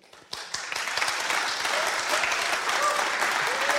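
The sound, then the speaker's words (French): An audience applauds a jazz trio. The clapping begins from near quiet, swells within the first second into dense applause, and then holds steady and loud. “que vous applaudissez et je vous en remercie.”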